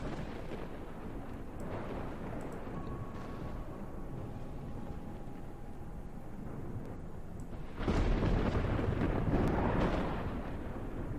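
Thunder rumbles in a storm of dark clouds with no rain, a continuous low rolling roar that surges noticeably louder for a while near the end.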